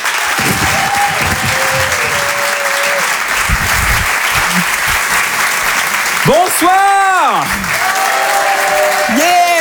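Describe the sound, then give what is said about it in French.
Comedy club audience applauds and cheers for a comedian, with loud, steady clapping and scattered whistles, and a person begins speaking over the fading applause near the end. “Faites du bruit s'il vous plaît”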